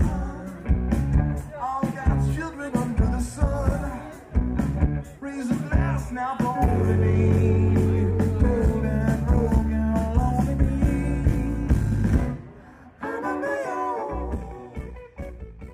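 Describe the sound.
A live rock band plays at the High Water Festival on a late Saturday afternoon, with dense, loud full-band music of drums, bass and guitars that drops away abruptly near the end.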